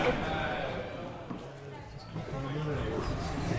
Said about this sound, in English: There we are. The happy sound of the busy climbing wall.